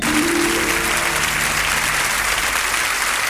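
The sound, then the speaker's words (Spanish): Warm applause from an audience sending off a Chilean singer, a dense, loud, steady clapping that fills the whole stretch without a break. “Estos cálidos aplausos son para despedir a Lucho Gatica, el artista chileno que sin duda ha logrado el mayor éxito internacional de todos los tiempos.”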